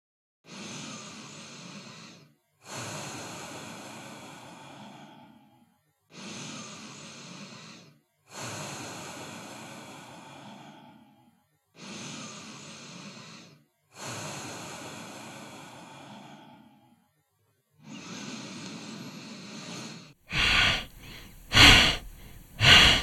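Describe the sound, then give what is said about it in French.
Deep yoga pranayama breathing exercise: seven long, steady breaths with brief pauses between them, each a soft, airy rush. A few louder, sharper bursts follow at the end. “Nous allons commencer par deux ou trois respirations profondes pour vous préparer et continuer pour dix cycles ensemble.”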